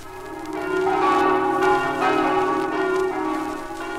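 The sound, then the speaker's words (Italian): Church bells ring out over Osoppo in Friuli, near the Tagliamento river, announcing Sunday; sustained, overlapping resonant tones hum steadily for four seconds without pause. “Gli squilli delle campane che si dilatano sino all'opposta sponda del Tagliamento, sino alle luci di Gemona, annunziano il giorno del Signore e del riposo.”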